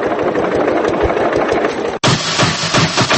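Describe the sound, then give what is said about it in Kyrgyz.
Chinese tractor engine running, a loud rough rumble with rapid chugging pulses that holds steady, broken only by a momentary gap partway through. “Аткенде Орусияга кетпеген жаштардын көпчүлүгүн мына ушундай кытайский трактор кармап турчу эле.”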